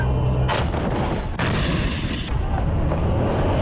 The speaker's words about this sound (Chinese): 抵达阵地，实弹射击即刻展开，演练模拟真实战场